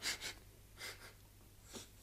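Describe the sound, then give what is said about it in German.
Quick nasal sniffs as someone takes a pinch of snuff tobacco. A few short, airy inhalations come in bursts, quiet and with no talk over them. “Ich muss eine Prise Tabak draufnehmen. Vielleicht geht es mit dem Niesen fort.”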